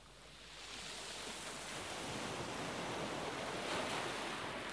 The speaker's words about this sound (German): Du erfreust dich an den Wellen und ihrem Spiel, beobachtest, wie sie immer wieder das Ufer berühren